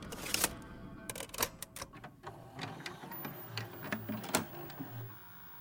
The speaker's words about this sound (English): Why don't I pop in a new tape for you while Malachi and I reunite?